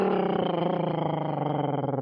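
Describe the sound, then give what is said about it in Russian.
A tiger growls when it leaps out, a loud, deep and sustained roar with a rough, steadily pulsing texture that fills the whole clip, with no voices. “Как только Сади приблизился, тигр выскочил и зарычал”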